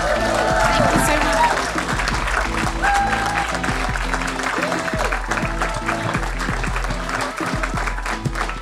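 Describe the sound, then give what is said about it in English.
Audience applause at a live discussion event, a continuous patter of clapping blended with loud music and voices that runs for almost nine seconds. “And can we have a loud round of applause?”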